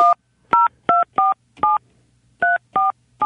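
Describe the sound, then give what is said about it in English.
Telephone keypad tones dialing a fishing hotline number: a quick string of bright, short two-tone beeps in uneven rhythm, each clean and loud, with a faint low hum underneath. “Let's try their fishing hotline, 247-FISH. Hope I dialed the right number.”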